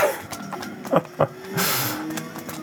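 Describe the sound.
A rally car sliding in a light drift through a curve, a gritty mix of engine and tyre noise with a few short knocks and a brief hiss of sliding in the middle.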